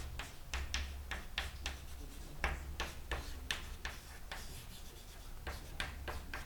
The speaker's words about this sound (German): Das schreibe ich gleich mal auf.